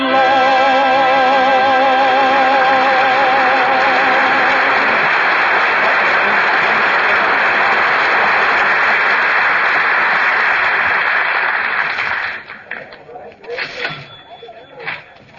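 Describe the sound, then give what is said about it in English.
Noisy crowd of people at Christmastime: a loud, dense, continuous hubbub of many voices that holds steady, then thins out near the end as separate voices emerge. “Boy, what a crowd.”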